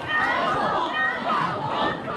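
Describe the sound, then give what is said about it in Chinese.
An audience cheers and calls for an encore at the close of a graduation song concert, many voices shouting together in a loud, continuous, rhythmic chant. “在观众高喊返场的欢呼声中”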